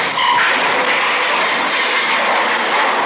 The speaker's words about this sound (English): He's coming out. The blue sedan. All right, hold it. Look out, Joe. Coming at us. I'll go for his tires.